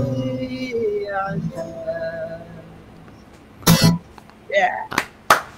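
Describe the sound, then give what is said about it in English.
A few sharp hand claps from one person during a musician's interview, after a stretch of voice with clear harmonics; the claps come as brief, loud, separate bursts between short spoken sounds. “I will clap for everybody watching on YouTube right now.”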